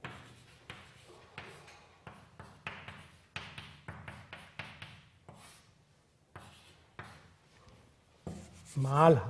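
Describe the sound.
A mathematical formula is written out by hand during a physics explanation, heard as faint scratchy strokes in short, irregular bursts with brief pauses between them, and a voice comes in near the end.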